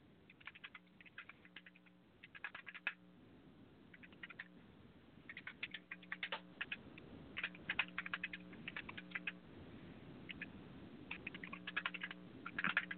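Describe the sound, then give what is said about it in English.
Typing a message on a computer keyboard: quiet, irregular bursts of rapid key clicks with short pauses between them, continuing throughout with no talking. “Give me a second. I got to write a message to Cuervo.”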